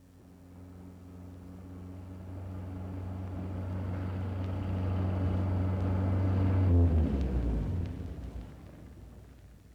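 A taxi car drives at night in a 1960s drama. Its engine hum and road rumble build slowly and grow louder, then cut off sharply near the end and fade out, with no voices.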